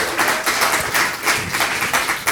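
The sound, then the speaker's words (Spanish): An audience applauds in gratitude for the producer of a family event. The clapping comes in many loud, rhythmic bursts that pulse at a fairly even pace throughout. “Y ya que andamos de generosos dando aplausos, pues démosle a Hope un aplauso de gratitud.”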